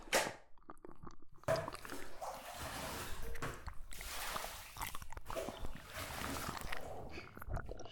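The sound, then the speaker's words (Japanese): Hot bath water sloshing and splashing as a person climbs into the tub, rising in several broad swishing surges that run almost continuously and fairly loudly, with no talking. “お湯加減はいかがですか？私も入りますね。”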